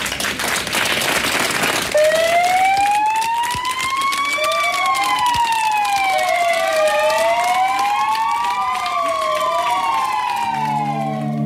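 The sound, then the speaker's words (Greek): Fire engine sirens wail loudly after a brief burst of noise. Several overlapping tones sweep up and down in pitch, continuing steadily to the end. “Βάλαν και τις σιρήνες εκεί, τα πυροσβεστικά οχήματα, ανάβαν και οι φάροι.”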